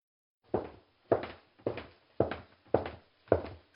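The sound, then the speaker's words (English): Six evenly spaced footsteps climb a staircase, each a dull, firm thud with a short decay. The steps are heard alone in a steady walking rhythm. “I'm going upstairs now, listeners.”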